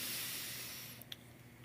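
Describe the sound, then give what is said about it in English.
A deep inhalation, drawn as a soft, airy hiss that holds steady for about a second and then tapers away, faint and on its own. “as you inhale, a nice deep inhalation”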